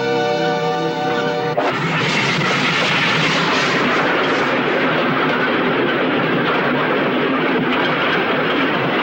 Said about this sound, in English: In the morning, the train speeds through the prairies.